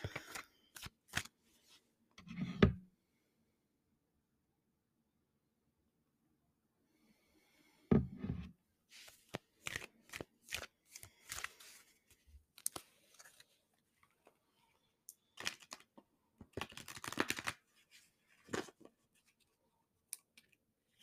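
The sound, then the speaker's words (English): A deck of oracle cards is shuffled and a card is pulled, giving crisp papery flicks and riffling clicks in several bursts separated by quiet gaps, with no voices. “I am feeling like a surrender card would be good. So let me go ahead and pull that.”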